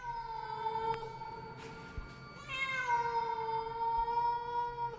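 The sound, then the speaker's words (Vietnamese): A stray cat in bushes gives two long, drawn-out meows, wailing and wavering in pitch with rich harmonics, the second slightly higher at its start, over a low background hum. “thì bất giác có tiếng con mèo kêu lên, nghe rát cả ruột.”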